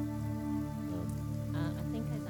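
Soft, steady rain falling at a dockside, faint and continuous, with a sustained low tonal drone beneath the hiss.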